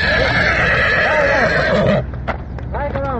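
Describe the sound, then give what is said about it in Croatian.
Frightened horses being led back to their stable along a local road after a flood: loud, shrill whinnying neighs, then a few hoof clip-clops on the road and another neigh. “Tu sudbinu izbjegli su konji jednog gazde iz Mislođina, koje smo sreli na lokalnom putu kada su uplašeni vraćani u štalu.”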